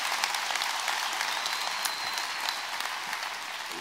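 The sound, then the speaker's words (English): An audience at a church applauds to welcome a speaker. The clapping is dense, steady and moderately loud, with no talk over it. “At all of our campuses, why don't you put your hands together and join me in welcoming Dr. David Platt.”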